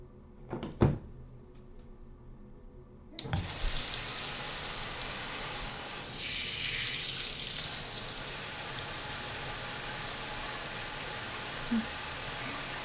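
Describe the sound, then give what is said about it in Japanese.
Shower water runs onto hair, switching on abruptly after a few soft clicks and then pouring as a steady, loud, even hiss that continues to the end. “まずは髪の毛を濡らしていくね。”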